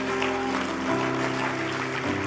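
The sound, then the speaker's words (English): A church audience applauds, steady clapping running throughout over sustained music chords. “Come on, can we put our hands together and bless God for those that made that decision today?”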